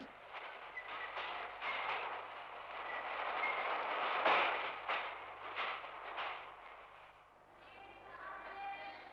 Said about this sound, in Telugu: రైలు వచ్చింది.